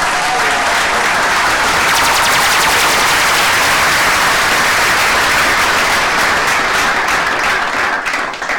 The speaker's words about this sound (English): What a round of applause